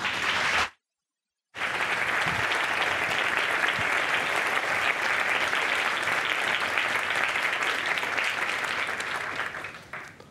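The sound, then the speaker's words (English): A festival audience at the Hay Festival applauds to welcome a speaker, with steady, dense clapping that holds for around ten seconds after a brief cut near the start, then tapers off at the end. “He will be signing copies in the book tent afterwards. Please do give Jaideep a warm Hay welcome.”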